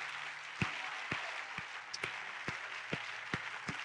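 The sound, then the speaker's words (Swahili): Hands clapping in praise during a church sermon: eight sharp, evenly spaced claps in a steady rhythm stand out over a softer, continuous bed of clapping. No voices are heard. “Mpigi Yesu makofi.”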